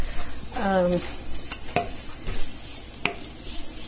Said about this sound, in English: I don't want the coconut to get stuck in any one spot and burn. But I do want it to get a little toasty flavor and maybe, you know, cook off some of the freezer flavor.